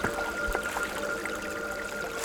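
Mountain stream flowing beside a trail climbing toward the ridges. Faint, steady trickling and rushing water runs evenly throughout, with no voices.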